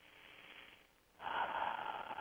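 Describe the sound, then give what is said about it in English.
A single deep breath taken during a calming mental exercise: soft, airy breath noise that starts quietly, then swells into a fuller, louder rush about halfway through and holds there to the end. “And then you just take a deep breath.”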